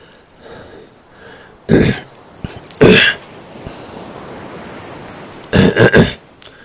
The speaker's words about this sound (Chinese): 我清了清喉咙，摆脱阻止我说话的干哑感。